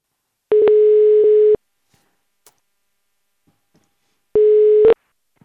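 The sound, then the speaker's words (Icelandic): A telephone tone heard while placing a call to a football coach: two steady, mid-pitched tones, each about a second long, separated by a long silence with a few faint clicks. “við ætlum að hringja í Rúnar Kristinsson”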